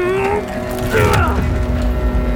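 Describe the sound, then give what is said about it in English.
Screws are backed out and boards pried off a basement door, a creaking, ratcheting mechanical sound of wood and metal working loose. “The screws are coming out! Here come the boards! One more!”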